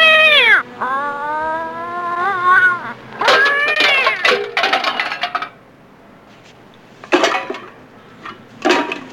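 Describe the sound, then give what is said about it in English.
An alley cat gives drawn-out meows and wails, then knocks something over: a few bursts of metallic, dish-like clattering onto the ground, broken by quiet gaps. “there is a cat in the alley, hence alley cats, and it knocks something down onto the ground.”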